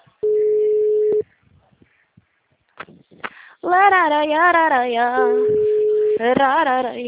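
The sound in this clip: A telephone ringing tone on an outgoing call: one steady tone of about a second, then a pause with small clicks. People talk, and a second identical tone sounds under the voices.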